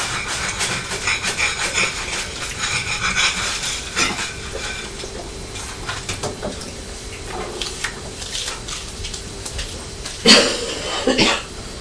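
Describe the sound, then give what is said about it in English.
Two short coughs from a mother near the end, heard over a continuous background of kitchen clatter and stirring. “Mummy's still better at cough. Hasn't she?”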